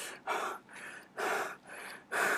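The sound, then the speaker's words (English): A voice imitates heavy panting after climbing three or four flights of stairs: about five breathy huffs in steady rhythm, alternating stronger and softer breaths. “going to 3 or 4 floors by stairs and you start panting like, I mean, you are like,”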